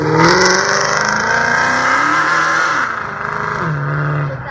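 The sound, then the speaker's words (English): A Dodge Charger's engine revs loudly and steadily, its throaty tone wavering in pitch through the run and dipping lower near the end. “But we have a black Dodge Charger. Mm-hmm. Here he is.”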